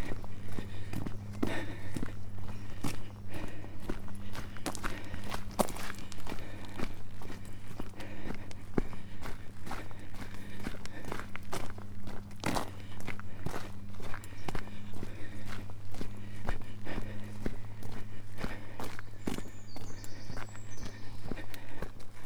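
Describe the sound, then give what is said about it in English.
Footsteps tread steadily along a roughly level path toward the top of Clovelly: many regular crunching steps throughout, over a constant low hum. “It should now be a levelish walk to the top of Clovelly.”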